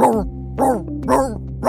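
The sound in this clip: Voice imitating a singing dog, four howl-like sung yips with sliding pitch, evenly spaced and fairly loud.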